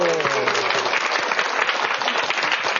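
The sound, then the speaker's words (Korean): Audience applause at a church talk, a thick, continuous roar of clapping hands holding steady throughout, with a voice briefly heard near the start. “아이고 박수 한번 주세요.”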